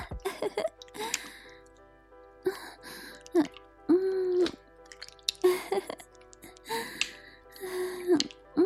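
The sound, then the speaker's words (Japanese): Sucking and gulping mouth sounds, as of a baby eagerly drinking from its mother in role-play, come in many short bursts, some with voiced hums and breaths between them. “チューチューって音が聞こえてくるわ。すごい勢い。こんなにも飲んでくれるなんて、ママ嬉しいわ。”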